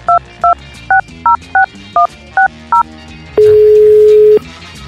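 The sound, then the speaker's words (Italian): Telephone keypad tones ring out as a number is dialed: eight loud, clipped beeps in a quick, even rhythm, followed by a single longer steady tone. “Chiama, chiama Giordano,”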